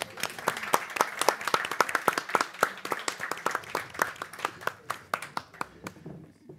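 An audience applauds as a guest is called up onto the stage, many sharp, distinct claps in a brisk, uneven patter that thins out toward the end.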